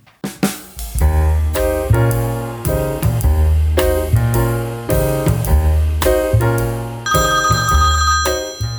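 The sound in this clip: A phone ringing with an incoming call: a loud melodic ringtone of bright, repeated notes in a steady rhythmic pattern, heard on its own.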